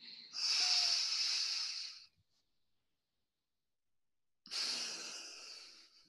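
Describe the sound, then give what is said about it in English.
Deep breathing through the nose, heard as two long, airy, hissing rushes of breath separated by a silent pause. The first lasts about two seconds and the second tapers off gradually. “Whereas if we now take a breath through our nose,”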